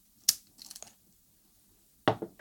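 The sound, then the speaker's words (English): Wire cutters trimming a ground wire to length during an electronics build: a few sharp, crisp snips, with a short cluster early on and a final pair after a long quiet gap. “And that one there's ground, so it needs to be that long. And trim.”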